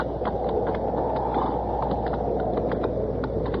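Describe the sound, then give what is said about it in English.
Slow hoof clops of an injured horse with a bad leg being walked out in open country, evenly spaced and fairly faint over a steady wind-like rush. “How about the horse, Chester? Ain't nothing broke that I can see. See if you'll stand. Come on. All right, walk him a little.”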